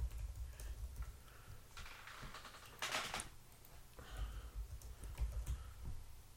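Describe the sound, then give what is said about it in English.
Faint keystrokes from typing on a computer keyboard, with many soft, irregular clicks scattered through several seconds of quiet. “I'm sorry, I can't type and talk at the same time. I have to write down the names that we're picking.”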